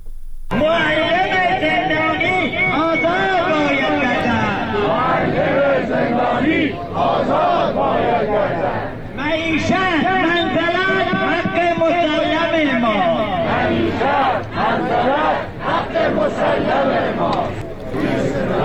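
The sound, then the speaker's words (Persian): Protesting teachers in Kermanshah chant slogans: a loud crowd of many voices in rhythmic unison phrases, broken by brief pauses, throughout. “این صدای شعارهای معلمان معترض در کرمانشاه است.”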